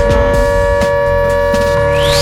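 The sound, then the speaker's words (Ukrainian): An air raid siren holds a loud, steady wailing tone. Low rhythmic sounds run underneath, and a rising sweep comes in near the end. “Увага! Повітряна тривога триває. Залишайтеся в укриттях.”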